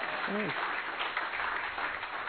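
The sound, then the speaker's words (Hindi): Audience applause in a self-empowerment class: continuous, even clapping that sounds somewhat muffled and thin, with a voice heard briefly near the start. “भाई तालियां तो बजा दीजिए”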